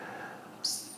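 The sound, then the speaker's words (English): A single bird chirp rings out, a brief, high, bright call that rises suddenly over a steady background hiss partway through and then fades. “There's a bird in the background.”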